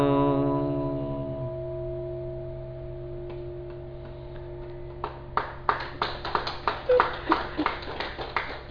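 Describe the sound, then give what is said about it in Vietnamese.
Sparse, thin applause from the audience at a Buddhist gathering: scattered individual claps start after a sustained ringing tone fades, then grow into a loose, uneven patter of a few hands near the end. “Vỗ tay yếu quá.”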